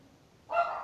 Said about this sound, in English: I'm so sorry for my dogs. They are making some noise